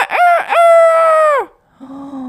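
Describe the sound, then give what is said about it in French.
Chicken calls: two short rising squawks, then a long, loud, high, sustained rooster-like crow that drops off, followed after a pause by a lower, quieter drawn-out call. “ils ont commencé à caqueter tous les deux, à courir partout.”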